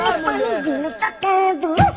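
Mobile phone ringtone playing a catchy song with a loud sung melody whose pitch wavers and bends, continuous for about two seconds.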